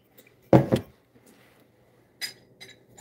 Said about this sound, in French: Je fais exprès de taper ma bague là-dessus. C'est bien en verre. Il faut une bouteille en verre. Vous avez la bouteille en verre qui est là, le vinaigre.